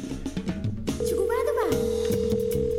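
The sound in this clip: A telephone ringback tone while a call to somewhere in the United States is placed. Talk comes first, then a steady, mid-pitched continuous tone that persists to the end, with a voice briefly over it.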